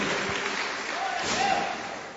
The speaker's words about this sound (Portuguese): Nós vamos receber o nosso pastor agora com aquelas palmas alegres para Jesus.